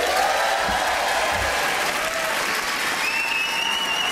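A studio audience on a comedy show applauds a live band after their performance: a steady, dense wash of clapping that holds evenly throughout, with faint lingering tones above it.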